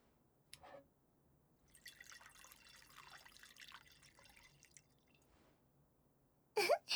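A drink is poured at home: a brief tap, then a soft, steady trickling stream of liquid that lasts a few seconds. Louder knocks follow at the end. No talk is heard.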